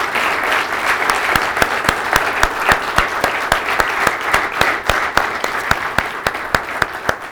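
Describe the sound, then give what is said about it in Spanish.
A church audience gives pastors a loud round of applause. Dense, steady clapping runs the whole time, with sharp individual claps standing out at an even level. “¿Por qué no le dan un aplauso fuerte a estos varones que están liderando?”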